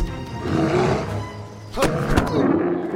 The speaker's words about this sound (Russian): Тим спускается с небольшой горы. Приземляется на бурого медведя.